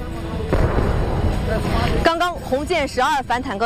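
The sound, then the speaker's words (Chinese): An HJ-12 anti-tank missile launch gives a broad rushing roar for about two seconds, then a voice talks over a fading rumble. “导弹发射，那么在空中我看到了它的尾翼，现在导弹正在迅速的爬升，在空中进行了2次的点火，很快向下俯冲，命中目标。”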